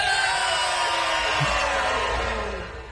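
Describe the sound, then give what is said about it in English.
A group of people hollering loudly together on a count of three, a sustained, strained shout with many voices merging that slides slightly downward and tails off at the end. “On the count of three, we're going to holler real loud, and then we're going to take a swaller of our drink, all right?”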